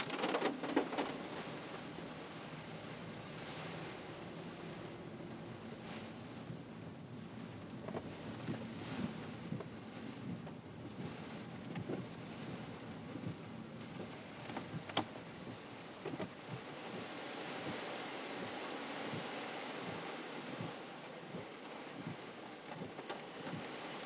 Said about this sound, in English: My phone was right this morning. It is raining. Hard.